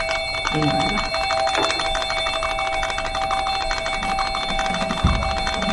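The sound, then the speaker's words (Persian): A call bell rung repeatedly in an office, giving a steady, bright, continuous metallic ringing with a dense rattling texture that lasts the whole clip, with faint talk underneath. “خانم دستتون رو اون زنگ بردارین”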